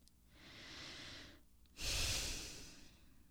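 Slow, deep breathing during a calming exercise: one long, soft inhale, a brief pause, then a longer, louder exhale, with no other sounds.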